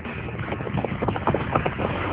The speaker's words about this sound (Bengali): পিছনে শোনা গেল ছুটন্ত পদশব্দ